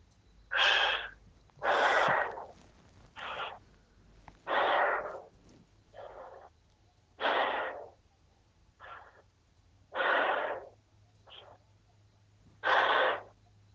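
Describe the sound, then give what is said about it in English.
Heavy breathing in and out, about ten deep breaths in a steady, evenly spaced rhythm, each a rushing, breathy burst followed by a short pause, quiet overall with no talk. “Just breathe in and out 5 times heavily.”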